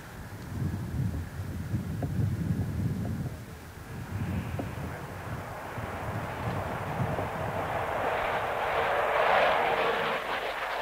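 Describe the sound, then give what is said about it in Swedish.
Roar of MiG military jets landing at an airfield during a multinational air exercise: a broad, rumbling engine noise mixed with wind buffeting that swells louder toward the end. “Den här övningen som alltså samlar deltagare från 12 länder inleddes idag och då landade de första MIG-planen på flygfältet.”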